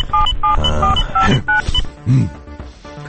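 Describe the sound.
Telephone keypad tones as a phone number is dialed: several short, clear beeps of differing pitch at an uneven pace, mixed with other low rumbling sounds.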